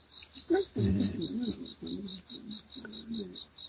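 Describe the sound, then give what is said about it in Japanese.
Loxoblemmus crickets chirp a few metres outside a window, a thin, steady high-pitched trilling that runs without a break under low talk. “今もこの私の窓の数メートル先から、特に、三つ角コオロギがですね、”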